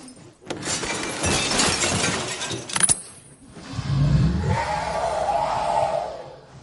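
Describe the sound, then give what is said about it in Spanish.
A crystal chandelier falls and its glass breaks. A jangling, clattering wash of noise ends in a sharp crash, followed by quieter, lower sounds. “Ahora Newt está colgando de una lámpara de cristal. La lámpara se cae.”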